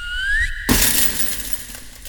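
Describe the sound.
A glass chandelier crashing down after a dragon strikes it: a rising whistling tone, then a sudden loud shatter of glass with bright tinkling fragments that ring on and slowly fade.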